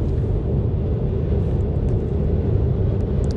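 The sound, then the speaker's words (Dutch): Road noise from a car driving over the bridge across the IJssel river near Deventer, heading toward Apeldoorn: a steady, loud low rumble with constant tyre hiss and no pauses or talk. “terwijl ik over de IJssel rij, nu over de brug over de IJssel, richting Apeldoorn.”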